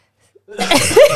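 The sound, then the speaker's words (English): A single harsh cough goes straight into the microphone from someone with a phlegmy chest illness. It is a loud, rough burst that trails off into a short voiced tail. “I just coughed into the microphone.”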